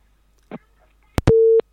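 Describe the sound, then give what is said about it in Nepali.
Telephone busy tone after a caller's line disconnects during a radio call-in: a few clicks, then one brief, steady, mid-pitched beep. “कोही साथी हुनुहुन्थ्यो, उहाँको आवाज सुन्न सकेनौँ र फोन डिस्कनेक्ट भयो।”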